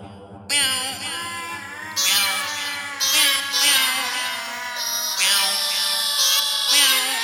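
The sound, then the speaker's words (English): A group of cats meows together like a choir, a long string of loud, overlapping, wavering meows rising and falling over a steady low drone. “are they not exquisite, my friend? This motley bunch of feline choristers. Yes, you tapeworm-ridden strays, sing!”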